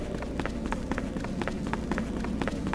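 Running footsteps of a character in a video game, with quick, evenly spaced steps repeating at a brisk, steady rhythm over a constant background.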